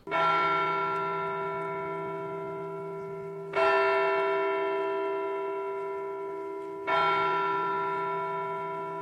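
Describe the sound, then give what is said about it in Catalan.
A muffled church bell tolling slowly at midnight: three evenly spaced strikes, each ringing with rich overtones and decaying gradually into the next. “A mitjanit, una campana sorda els va despertar. Era un repicar lent i parsimoniós.”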